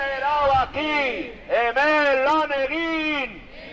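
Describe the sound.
Loud chanting voices at a street demonstration during a Basque public sector strike, with sustained shouted phrases rising and falling in a steady rhythm.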